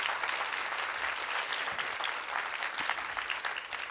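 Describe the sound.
Warm audience applause welcomes author Roddy Doyle at the Edinburgh International Book Festival, a dense, even wash of clapping that stays loud and steady from start to finish.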